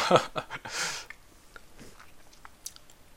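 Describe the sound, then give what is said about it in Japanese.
Close biting and chewing while eating expired natto: a few louder bites at the start, then quieter, irregular chewing sounds. “納豆も食べますこの納豆はね賞味期限が切れてるよ”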